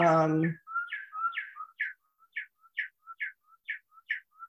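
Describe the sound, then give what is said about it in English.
Birdsong chime from a bird clock sounding the hour: a brief voice at the start, then a steady run of many short, high, chirping bird calls in evenly spaced pairs. “That's my bird clock. People who know me from meetings know that. So it's 8 o'clock, 9 o'clock.”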